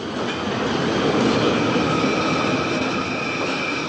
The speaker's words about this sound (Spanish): se arrojó al paso de un tren en la estación Vicente López